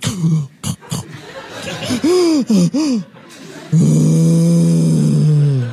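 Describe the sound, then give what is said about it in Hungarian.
A voice in a stage comedy act imitating a huge snoring breath: a few short gasps and voiced bursts, then a loud, sustained rasping drone that holds steady to the end. “És innentől kezdve beindul a motor, tehát egy olyan elképesztő horkolást kell elképzelni”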